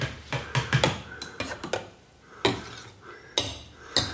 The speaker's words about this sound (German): Frühstücksmesser sind auch sehr feines Universalwerkzeug, kann man wunderbar seinen Kaffee mit umrühren.